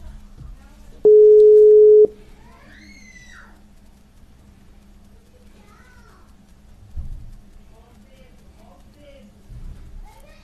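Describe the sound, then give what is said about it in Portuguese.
A telephone line tone sounds while a call is being placed: one steady, mid-pitched tone lasting about a second, then near quiet with faint low murmurs and a couple of soft thumps. “Não vai atender, eu acho.”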